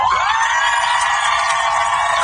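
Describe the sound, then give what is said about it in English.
Crowd of family members and loved ones cheering as the aircraft carrier USS Abraham Lincoln pulls into port in San Diego, a dense, steady wash of voices and shouts that holds without a break for the whole clip. “A large crowd of cheering family members and loved ones greeted the aircraft carrier as it pulled into port today.”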